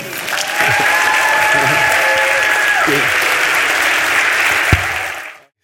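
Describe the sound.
Audience applause welcomes a speaker to the stage at a morning gathering: dense, steady clapping that holds at an even level for about five seconds before quickly fading out.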